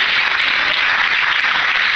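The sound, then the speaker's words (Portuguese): Dense, steady applause from a church audience during a service, continuous and fairly loud for the whole two seconds with no breaks. “Em nome de Jesus, adore o Senhor nessa noite. Aplaude o nome dele, aleluia.”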